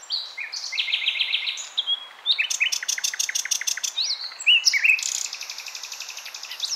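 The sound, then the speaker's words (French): A European robin sings alone in varied high, thin phrases, mixing clear whistled notes with rapid trills and brief pauses between bursts. “dans cette famille d'oiseaux, ça chante. Et ça chante même en automne, pas seulement au printemps ou pendant les beaux jours.”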